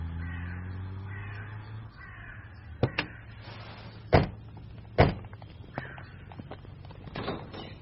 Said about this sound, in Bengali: সন্ধে হতে দেরি নেই, গাছে গাছে পাখিরা চিৎকার শুরু করেছে।